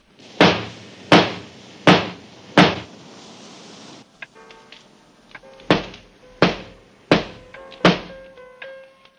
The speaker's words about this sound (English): As he does his flies up, a hook bangs on the glass pane.